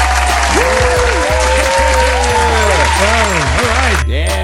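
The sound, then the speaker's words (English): A canned audience-applause sound effect: a loud, steady wash of clapping with voices talking over it, cut off abruptly near the end. “Look, I got a new sound clip. You hear that? Yeah, we got an audience, guys.”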